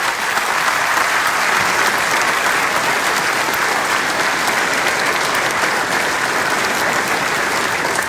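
Theatre audience applause at the Croatian National Theatre, honouring Vatroslav Lisinski and the historic building's 130th anniversary: loud, dense, steady clapping from a large crowd that sustains evenly throughout.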